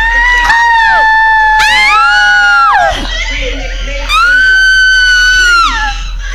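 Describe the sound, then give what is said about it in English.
Audience screaming at a horror film screening: loud, sustained high shrieks with wavering pitch and downward glides, in two long surges separated by a brief dip. “please do not panic, but scream! Scream for your lives!”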